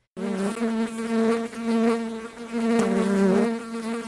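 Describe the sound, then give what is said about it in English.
A horsefly buzzes with a loud droning hum that starts abruptly, its pitch wavering as it flies and its loudness dipping briefly a few times, with no voices over it. “It's the sound of the pesky, annoying horsefly that warns us all, stay still and you might get bit.”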